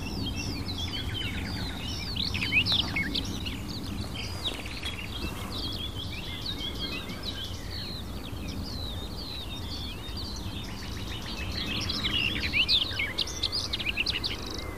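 A garden warbler's bubbling, hurried, sometimes tumbling song alongside a nightingale, bright chirps and trills repeating through the whole stretch over a steady low rumble, with busier bursts near the start and end.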